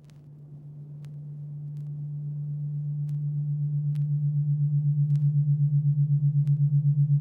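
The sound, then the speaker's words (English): A low synthesized hum represents the alpha brainwave with a rapid, even flutter. It swells gradually from quiet to moderately loud, with a few faint ticks scattered over it. “The sound you are hearing is the oral representation of a neural oscillation known as the alpha wave, registering in the frequency range of 8 to 12 hertz.”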